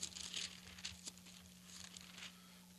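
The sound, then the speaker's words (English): Bible pages being turned during a church service, faint papery rustles and crinkles in several soft bursts over a low, steady hum. “Paper stopped turning. You got there before me.”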